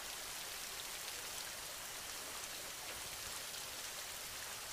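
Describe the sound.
Rain falls in an even, faint hiss, a soft, unbroken patter without pauses or any other sound.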